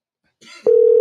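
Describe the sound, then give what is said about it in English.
A phone ringing tone on an outgoing call: after a brief snatch of speech, a steady, loud, low electronic tone starts abruptly and holds to the end. “Let me see what this motherfucker answers his phone. He's gonna answer his phone.”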